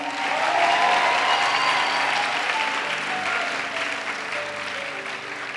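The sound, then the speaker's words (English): Audience clapping at a church conference: a sustained, steady wash of applause that stays fairly loud throughout and tapers only slightly toward the end. “Clap for her.”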